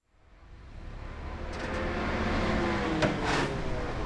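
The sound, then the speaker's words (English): Street traffic outside the US consulate in Shanghai: a broad, steady road rumble that swells up from near silence and holds, with a brief passing whoosh near the end. “Outside the US consulate in Shanghai, people mill around clutching documents in transparent folders.”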